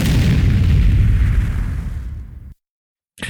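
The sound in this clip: A sonic boom sound effect: a single deep, loud blast that rumbles and fades over about two and a half seconds. Silence follows, then a short burst of sound at the very end.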